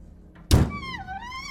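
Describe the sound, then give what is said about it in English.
A key turning a lock gives a single loud clunk after a faint tap, followed by a drawn-out metallic creak that dips in pitch. “But he does find the key and turns the lock.”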